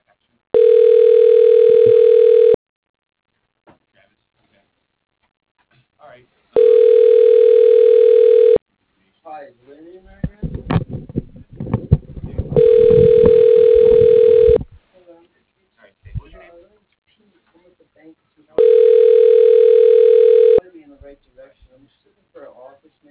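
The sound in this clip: Ringback tone from an automated phone system placing a call to an office extension: four evenly spaced rings of about two seconds each, steady and loud. A voice speaks in the gaps, and a burst of noisy clatter overlaps the third ring.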